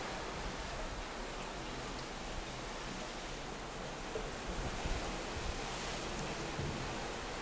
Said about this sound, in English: And I think you can hear the waves in the background. Just listen to it for a second.